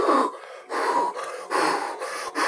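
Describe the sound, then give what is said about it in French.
Panting of someone running in dim corridors: rapid, heavy, breathy gasps in a quick uneven rhythm, a handful of loud in-and-out breaths with short gaps and no talk. “le souffle de quelqu'un qui court, quelque chose qui court derrière toi, qui te suit, qui est sur tes talons”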